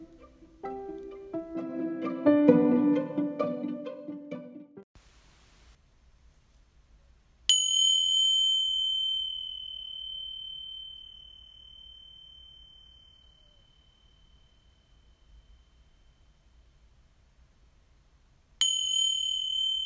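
Healing tingsha cymbals struck for purification ring out twice, each a bright, high, clear tone that sustains and slowly fades over several seconds. The second strike comes about eleven seconds after the first.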